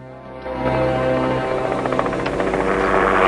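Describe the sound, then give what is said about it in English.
A helicopter flying over a hill toward a field of small bushes under netting, a steady droning roar that grows louder after the first half second and holds strong to the end. “A helicopter comes over the hill towards them.”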